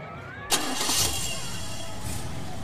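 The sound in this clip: A car engine starts in a Bengali audio drama: a sudden burst as it catches, then a steady, full engine hum that keeps running.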